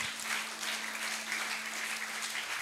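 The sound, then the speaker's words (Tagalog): A church audience applauding: dense, steady clapping from many hands that continues evenly throughout, with no speech over it. “Palakpakan nga natin ang Panginoon.”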